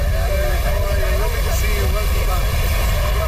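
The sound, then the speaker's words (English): An aircraft lands on the tarmac in Dublin. Its loud, continuous engine roar stays at a steady level from start to finish. “That's the sound of Prime Minister Mark Carney landing in Dublin for a two-day diplomatic visit.”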